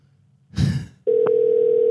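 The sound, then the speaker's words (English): An international call ringing out on a cell phone: a brief rustling burst, then a steady, continuous mid-pitched ringing tone that holds unbroken to the end. “He'd be seeing Australia calling through on his phone, on his cell.”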